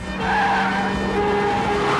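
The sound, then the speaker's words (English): Metal screeches harshly against concrete as a speeding car bumps up onto the pavement, a loud, continuous grinding squeal that holds steady for about two seconds. “the wheels bumping up onto the pavement, metal screeching against concrete in a shower of sparks”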